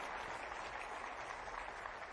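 A church audience of young and old applauds together, a dense, even crackle of many hands clapping that stays fairly faint and steady from start to finish without voices.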